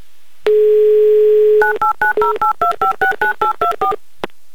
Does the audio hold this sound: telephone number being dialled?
yes